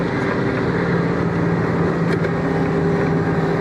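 A large truck engine drones steadily while driving with the throttle held even, a continuous low rumble with a constant hum running underneath and no change in pace.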